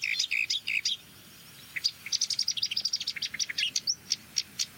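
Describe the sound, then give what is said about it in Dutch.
Alarm call of a common blackbird: sharp, high chinking notes, a short burst at first, a pause, then a long rapid run of insistent chinks. “Merelalarm.”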